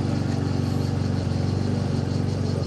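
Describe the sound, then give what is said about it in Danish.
Lawnmower engine running, a steady droning motor with a rapid pulsing rhythm that holds an even, moderate level throughout, with no voices. “Jeg gætter på, at det var en græslåmaskine, men jeg tør ikke. Så kører den igen.”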